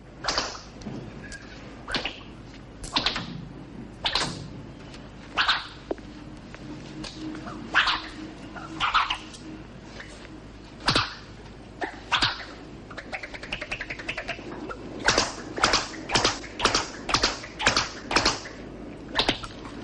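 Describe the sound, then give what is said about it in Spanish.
A riding crop is swished through the air while being tried out in a shop, giving many sharp whooshing cracks at uneven intervals, then a quicker run of strokes near the end. “escoge una fusta y la blande haciéndola sonar”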